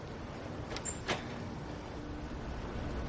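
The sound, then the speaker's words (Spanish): A house door is opened by a girl's father, heard as a couple of brief, soft knocks and scrapes early on over steady, low background noise. “De pronto el padre de la joven abre la puerta de la casa.”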